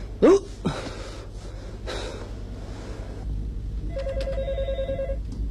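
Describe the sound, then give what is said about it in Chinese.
A telephone rings with a single rapid, warbling electronic trill lasting about a second, coming after a few short breathy sounds. “小杨电话”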